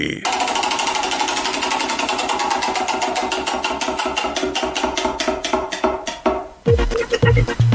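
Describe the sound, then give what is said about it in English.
Prize wheel being spun, giving a dense run of sharp, even clicks that gradually space out and slow as the wheel loses speed, then stop, followed by a brief different sound at the end. “it's time to spin the Wheel of Destiny”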